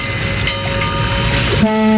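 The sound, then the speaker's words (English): Foghorn sound effect: a deep, steady, loud horn blast that starts late and holds to the end, following music. “we need a bit of a foghorn”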